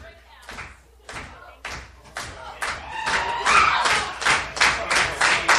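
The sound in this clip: Audience applause at a live monthly comedy news review show at a cafe, starting as distinct claps in a steady rhythm and building louder and denser into full crowd clapping.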